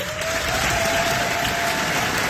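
Audience applause at an Army Physical Training Corps pass-off parade for new physical training instructors at Fox Lines, Aldershot Garrison. Dense, steady clapping runs unbroken through the whole clip at an even loudness.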